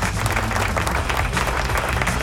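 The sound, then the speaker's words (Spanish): Applause fills the whole stretch: a dense, steady roar of many hands clapping, evenly loud from start to finish without pauses, with no talk over it. “¿Dónde están los aplausos? Ahí vienen los aplausos. Por ahí están los aplausos.”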